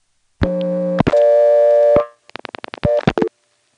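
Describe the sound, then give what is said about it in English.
A telephone is picked up on a step-by-step exchange in Siler City and a 6 is dialed. A loud steady two-part tone sounds, then six rapid dial pulse clicks, then short clipped tone bursts. “Now here's the sound of picking up the Siler City step and dialing a 6.”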